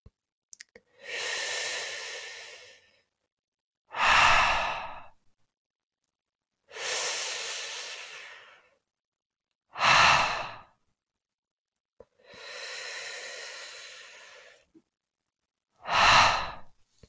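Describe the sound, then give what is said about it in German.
Deep breaths during a relaxation exercise, with the air let out almost silently through lips rounded on an H sound. Three rounds are heard, each a long, airy breath and a shorter, stronger one, separated by silence. “Jetzt forme aus deinen Lippen einen Kreis. Atme tief ein und atme fast ohne Ton mit dem Laut H aus.”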